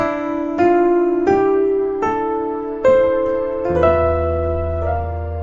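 Piano: a B flat chord in the right hand with an E in the left, struck several times in a steady rhythm. A deep, sustained bass note joins near the end beneath the ringing chords. No voices.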